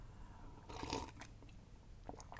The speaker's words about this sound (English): Excuse me while I sip my pumpkin spice coffee.